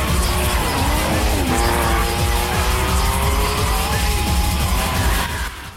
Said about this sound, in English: DK glares back at him with a self-satisfied smirk before reversing the 350Z, spinning around, and taking off again.